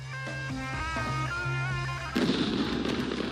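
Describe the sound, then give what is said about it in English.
Gunfire from across the street outside an embassy under attack: a sudden burst of crackling shots breaks in partway through and continues as a dense, noisy rattle. “There's a rush. They're rushing the embassy. That's fire coming from the other side of the street now. Outside the embassy.”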